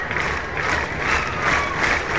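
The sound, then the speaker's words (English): A fired-up crowd at a night baseball game cheers in a continuous, loud roar that swells in gentle waves, with no single voice standing out. “This crowd has been excellent tonight. They're fired up.”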